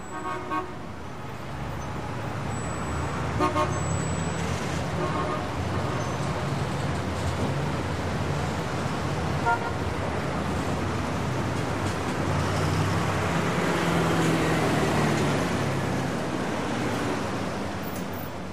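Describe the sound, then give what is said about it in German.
Road traffic rushes past outside an office window in a steady, unbroken roar, with a few faint horn toots early on. “Vor dem Fenster von Marlins Büro rauscht der Verkehr vorbei.”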